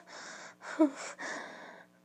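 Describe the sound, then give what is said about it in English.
Breathy gasps of pleasure, three in quick succession, each soft and airy, with a slightly sharper catch in the middle one. “You love the way I moan, don't you? You just love my my little gasps and”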